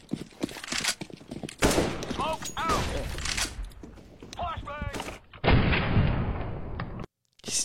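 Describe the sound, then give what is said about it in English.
Gunfire in the video game Counter-Strike: sharp, loud shots and rapid bursts of fire crackling throughout, while people talk over the action. “So, this is Counter-Strike.”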